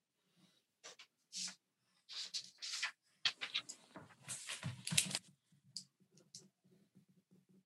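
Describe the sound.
Pen scratching on paper as someone writes down a vote, heard quietly in short irregular bursts of scratchy strokes with brief pauses between them.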